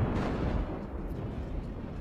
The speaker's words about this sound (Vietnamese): Bất ngờ ở trên thiên không, có một tiếng sấm vang vọng đùng đùng xuống.